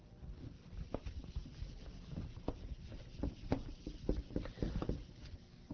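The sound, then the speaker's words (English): An eraser wiping a board: many short rubbing and scuffing strokes in an uneven rhythm, fairly faint and continuous throughout. “So let me erase the board and we'll take a look at the chapters.”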